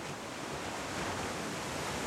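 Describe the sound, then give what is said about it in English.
Ocean surf washing onto a beach, a soft, continuous and even hiss with no single wave standing out. “Allowing yourself to soak in the sounds. The sounds around you of nature, being at the beach.”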